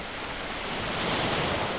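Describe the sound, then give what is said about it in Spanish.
Ocean waves used as soothing ambient sound, a continuous broad rushing surf that swells gently in loudness, with no voices over it. “estas olas que nos están arropando durante la madrugada de Radio Nacional son o pertenecen a un ambiente musical que para ella es como reconfortante”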